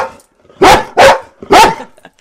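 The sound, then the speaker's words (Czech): Three loud barks from two brown Chesapeake Bay Retriever dogs. The sharp, evenly spaced bursts come alone, with no talk, and the last follows after a slightly longer gap. “A jsou tady s námi i psí pomocníci. Co to je za plemeno, krásné hnědé? Jsou to dva Chesapeake Bay Retrievři, Vicky a Irbis.”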